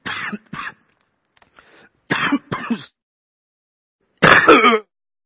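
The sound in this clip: Throat clearing by a speaker pausing during a sermon, with a series of rough, loud hacking bursts, mostly in short pairs separated by gaps, the last burst the longest.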